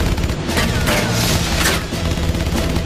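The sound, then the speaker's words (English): Loud gunfire rakes an old motorhome with dozens of bullets, a dense, continuous stream of rapid shots and booming bursts that runs without a break. “Dozens of bullets puncture the old motorhome.”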